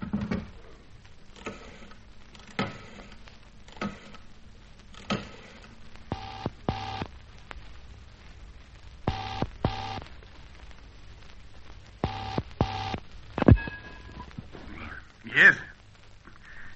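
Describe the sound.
A telephone being dialled, an older exchange-style call to a Mayfair number, heard as a series of short sharp bursts and brief tones spaced irregularly, faint against a low background hum.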